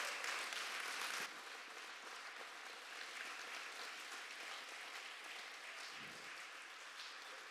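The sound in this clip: A church audience applauds as a guest speaker is welcomed to the stage, with dense, steady clapping that stays loud and even for several seconds, slightly fuller at the start, with no voices over it.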